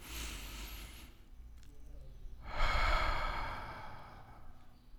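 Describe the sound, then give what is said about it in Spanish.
Deep breathing during a relaxation exercise: two long, airy breath sounds, one at the start and a fuller, louder one after a short pause, with no talking. “Por eso es bueno una agradable y profunda respiración. Vamos a ver, vamos a respirar. Vamos a hacerlo otra vez más.”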